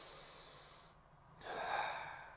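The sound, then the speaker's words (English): Calming breaths drawn in through the nose make soft, airy rushes of air, heard quietly and alone, the second breath fuller and louder than the first. “as soon as I breathe in through my nose, just a couple of times, it brings me down.”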